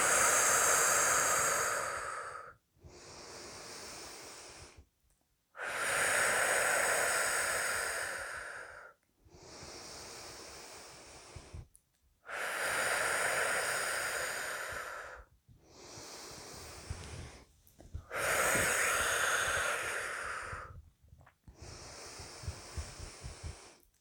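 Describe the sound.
Slow, deep breathing in and out during a guided breathing exercise: long, airy, loud breaths alternate in a steady rhythm, about four full in-and-out cycles with brief pauses between them.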